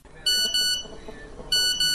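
Phone text-message notification beeps: four bright, high electronic tones arranged in two quick pairs separated by a pause, loud and clear over a faint low background.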